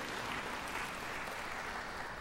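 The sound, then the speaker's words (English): Audience applause during a sermon: a dense, even wash of many hands clapping that holds steady for the whole stretch, fairly quiet, with no single claps standing out. “Yeah, you can clap if you agree with it.”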